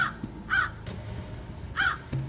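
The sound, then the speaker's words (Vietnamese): A black crow cawing, with a few harsh, nasal caws spaced apart by pauses and standing out faintly over quiet background noise. “Một tiếng quạ đen trút lên từ đâu đó”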